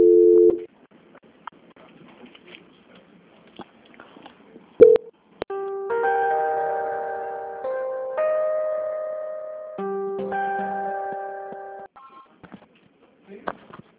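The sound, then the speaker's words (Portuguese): Telephone line tones play as a call is transferred: a couple of short beeps, then three long, steady tone blocks, each at a different pitch, with quiet gaps before and after. “Agora eu peço que a senhora aguarde só um momento em linha que eu vou transferir a ligação da senhora para São Paulo, tá bom? Só um minuto. Transferência.”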